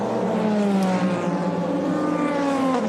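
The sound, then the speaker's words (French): Race car engine of a Lexus GT3 in the pit lane at Spa during an Akkodis team pit stop, a loud steady engine drone with layered harmonic tones that shift gently in pitch throughout. “Et là, on voit l'arrêt du leader en catégorie GT3.”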